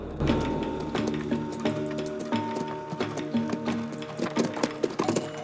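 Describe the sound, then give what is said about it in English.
Hooves of two horses, one led behind the other, walking a narrow trail of loose rock: many irregular clopping and scraping steps in a steady, uneven walking rhythm, with no voices. “The trail narrows, adding yet more danger. Pete presses on, holding the reins of Mike's horse, which is following directly behind his.”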